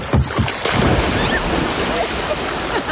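A person jumps off a cabin dock into water with a loud splash. A rushing wash of water and wind follows and continues steadily to the end.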